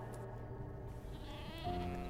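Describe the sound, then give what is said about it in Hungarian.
Lambs bleat faintly, giving soft, wavering calls with a slightly clearer short bleat near the end, over a low, quiet background. “Megint oda tekintettem, és a vadállatok helyén ugyanannyi szelíd bárányt láttam. Ezek örömmel bégetve ugrándozták körül a férfit és az asszonyt, mintha hódolnának nekik.”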